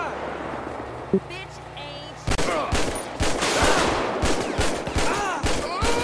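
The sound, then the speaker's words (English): Gunfire rings out in a police video game. After a quieter opening with one sharp crack, many rapid overlapping shots burst in loud volleys that continue to the end. “Shots fired by an officer.”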